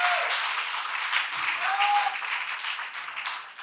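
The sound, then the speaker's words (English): A church audience applauds and cheers, with dense, steady clapping and raised voices mixed in throughout, easing slightly toward the end. “Come on, somebody, make some noise for Jesus.”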